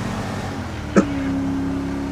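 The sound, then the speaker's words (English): Steady engine drone of a car speeding in a police video game, a low continuous hum that holds level with one brief click partway through. “Oh, he's driving fast, too. That Issy is driving outright fast!”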